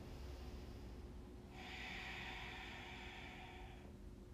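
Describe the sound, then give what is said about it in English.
A single faint breath lasting about two seconds, taken while holding a yoga pose. Soft airy hiss rises out of quiet background noise and fades, with no talking. “And take a breath here.”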